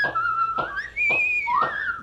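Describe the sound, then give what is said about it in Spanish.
Whistling of a tune with clear, bright tones that slide and bend in pitch, moving between held notes and gliding phrases at a moderate level, with no talking. “Pongámonos a silbar, hombre, para que no nos chotee, silbemos.”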